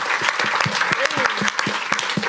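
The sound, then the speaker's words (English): An audience applauds with brisk, loud clapping, many individual claps in a quick, uneven patter that carries on evenly from start to finish. “Round of applause for Ben, everybody.”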